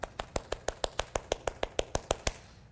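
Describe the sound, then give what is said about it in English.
Hand clapping used to demonstrate tempo, about fifteen crisp, evenly spaced claps at a fast, steady pulse, moderately quiet and heard alone without talking. “So even all I'm doing is clapping, right? But even in my clapping, there's a difference you feel between”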